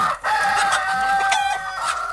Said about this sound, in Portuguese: todo dia uma bandeja com 20 ovos e as galinhas estão comemorando.